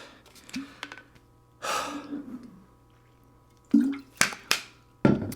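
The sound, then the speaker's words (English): Sharp gasping breaths from a person pausing to catch their breath: several quick, airy intakes, with a few clustered close together near the end. No speech is heard between them. “catch my breath for a second”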